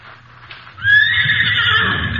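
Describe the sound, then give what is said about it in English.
A buffalo pony neighs: a soft low rumble gives way to a loud, shrill, drawn-out whinny that holds for more than a second before tapering slightly. “Pongo. You learn ride pongo. Good. Within the week, I learned to ride the buffalo pony well.”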